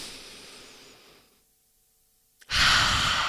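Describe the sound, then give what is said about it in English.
Deep breathing during a guided breathing exercise: a long, breathy exhale fades out, about a second of near silence follows, then a loud rush of breath starts abruptly. “we're going to take a breath. In fact, we're going to take three and they're going to be deep ones.”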